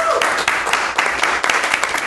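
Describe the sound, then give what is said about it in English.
A live audience breaks into loud, dense applause, a continuous patter of many hands clapping for about two seconds, with a few voices mixed in. “Okay, audience, a round of applause.”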